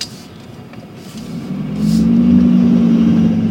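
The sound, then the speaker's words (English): Vehicle wheels spin in mud on a washed-out road as a vehicle towing a trailer struggles. The engine noise builds midway into a loud, steady revving drone with a low hum. “The road's washed out and the wheels are spinning in the mud.”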